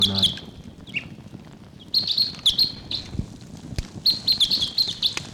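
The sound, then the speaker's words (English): A wild bird calling in the distance near decoys in a forest park: thin, high chirps come in repeated short bursts separated by brief pauses. “Wild bird calling in the distance there.”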